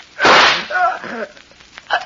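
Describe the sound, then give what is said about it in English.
A pistol fires once in a radio drama scene, a single loud, sharp burst that dies away within half a second, followed by quieter short vocal sounds. “You... You shot me. The gun wasn't empty.”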